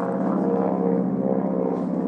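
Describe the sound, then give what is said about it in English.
Low-flying airplane buzzing overhead near Niagara-on-the-Lake, a steady, even droning hum with a deep, engine-like tone that holds at one level throughout, with no voices. “And there's a plane buzzing really low here, flying pretty low.”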